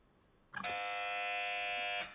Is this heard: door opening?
no